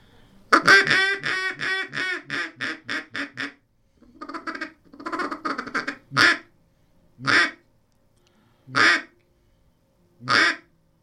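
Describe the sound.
A duck call is blown as a quiet, closed-in timber call: a quick run of quacks, a short pause, then a softer cluster. Four spaced, drawn-out quacks follow, each sounding alone.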